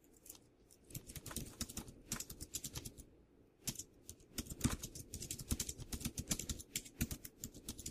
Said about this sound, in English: Let me type out an alternate definition and talk about that here.